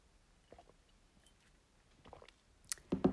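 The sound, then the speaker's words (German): A person drinking, with a few soft, wet mouth and swallowing sounds spread out, then louder gulps bunched together near the end. “Ich muss noch mal kurz was trinken.”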